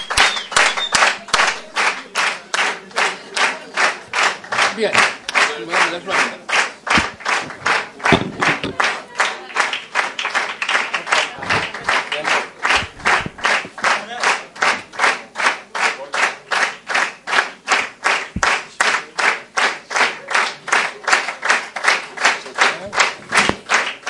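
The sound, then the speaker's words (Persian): Audience clapping for a team captain and the rest of the group: steady, rhythmic applause of many hands, loud and continuous throughout with no talk over it. “بقیه هم دست بگیرید دیگه.”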